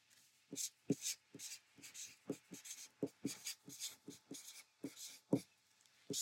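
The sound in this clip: A marker drawing on paper: faint, squeaky strokes of uneven length in an irregular rhythm, with short gaps between them.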